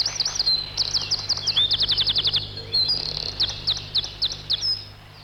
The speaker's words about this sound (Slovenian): Vse do večera, ki ga je Saško Stržek spet končal z veličastno pesmijo.